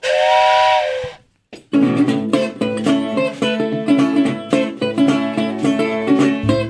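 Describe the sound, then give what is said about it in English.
An approaching train blows its whistle: one loud, sustained, chord-like blast lasting about a second, which then cuts off abruptly into silence. “you hear that train coming”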